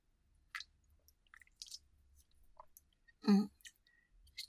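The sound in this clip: Faint sipping and wet swallowing sounds of someone drinking Red Bull mixed with an added liquid, scattered small clicks and squishes over near silence, with one louder gulp near the end.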